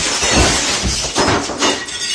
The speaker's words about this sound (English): I broke the window.